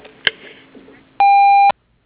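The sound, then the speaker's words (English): A voicemail beep tone on a business answering line sounds once, steady and loud at a fixed mid-high pitch for about half a second, after a stretch of faint line noise. “Please leave a message at the tone and we will get back to you as soon as possible.”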